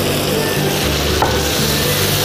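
Chicken stir-frying in a pan with soy sauce and salt gives a loud, steady sizzle throughout, with stirring scrapes of the spatula and no voices.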